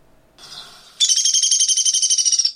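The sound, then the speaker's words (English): A bird's whinny call: a faint, soft opening note, then a loud, high, rapid trill of many quick pulses that carries steadily to the end. “once in a while, you might hear a different vocalization that's referred to as a whinny. And let's see if we can get that to play.”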